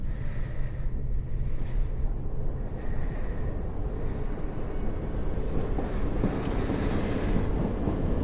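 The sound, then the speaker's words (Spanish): A train races through a station at full speed with a loud, steady roar and rumble that holds from start to end, with no voices. “El tren pasa a toda velocidad por la estación.”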